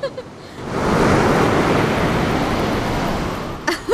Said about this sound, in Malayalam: ദേ നോക്കിയേ, ഒരു ഉഗ്രൻ തിര അടിച്ചു കയറി വരുന്നുണ്ട്.